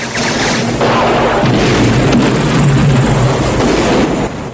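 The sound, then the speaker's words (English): A military helicopter circles an enemy camp under ground fire in a Rambo action film, a loud, continuous rotor roar mixed with heavy booms and bursts. “Rambo circles the camp in the chopper.”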